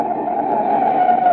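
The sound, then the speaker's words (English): Tyre screech of a car braking hard in an emergency: a sustained, harsh squeal that holds steady and loud for about a second and a half. “That's the sound of a car as a desperate motorist has jammed on the brakes in an emergency.”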